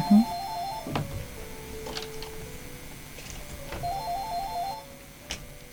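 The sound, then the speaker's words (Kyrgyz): An electronic telephone ring signals an incoming call. Two short warbling, tonal bursts are separated by a quiet gap, with faint background noise between them. “Анан бизге чалуу бар, кабыл алалы.”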